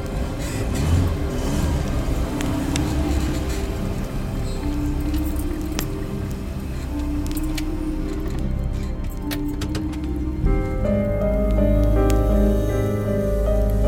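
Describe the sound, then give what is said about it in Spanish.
A car engine runs outside a house. A low, steady rumble swells near the end beneath a continuous bed of sound, with scattered light clinks along the way. “Entonces escuchó el ruido del motor de un coche fuera de la casa.”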